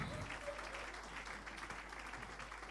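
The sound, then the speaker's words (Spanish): Church audience applauding during a worship celebration service, a faint, steady patter of many hands clapping together with no clear breaks. “ese aplauso de alabanza al Señor.”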